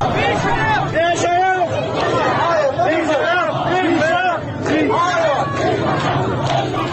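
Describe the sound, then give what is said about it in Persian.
A protest crowd chants slogans in unison in front of a governor's office. Many loud voices rise and fall in a continuous, rhythmic roar with no break. “اونجا شروع میکنن به شعار دادن که صدای شعار رو با هم میشنویم.”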